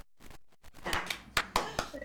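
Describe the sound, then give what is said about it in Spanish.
A few sharp hand claps come at irregular intervals after a quiet start, each a short slap, with the later ones slightly louder. “Muy bien, un aplauso para mí.”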